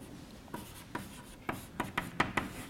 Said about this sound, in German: Also schreibe ich das mal auf.